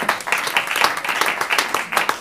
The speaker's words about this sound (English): Give yourselves a round of applause for that one then.